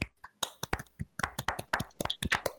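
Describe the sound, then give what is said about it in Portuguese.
Hand clapping, many quick sharp claps in an uneven rhythm, fairly quiet, with no steady beat and no talk. “Mano, pera, eu vou bater palma, pera aí.”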